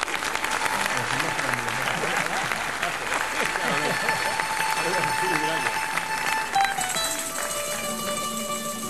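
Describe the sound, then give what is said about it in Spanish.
Loud, sustained audience applause at a live performance, with continuous dense clapping and voices calling out over it. “Ahora, por favor, ahora un aplauso.”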